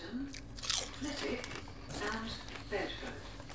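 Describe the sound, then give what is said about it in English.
Crunching bites of spicy crinkle-cut chips, with a few crisp crunches and wet chewing while people talk softly in the background. “These are crinkle cut. For best hold of flavour. Oh, yeah, mate. I'm going to have some. They've got a kick.”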